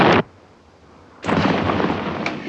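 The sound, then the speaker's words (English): Live artillery shells explode: a short, sharp blast, a brief lull, then a second heavier blast that rolls on as a sustained, rumbling roar. “They're shelling us with live shells. Exploding live shells.”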